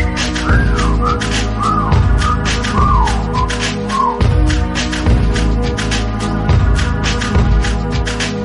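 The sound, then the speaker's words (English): A person whistles a catcall over a heavy hip-hop beat: several short, falling whistle notes in the first half, then only the thumping beat and crisp hi-hats continue. “Okay, time to whistle at”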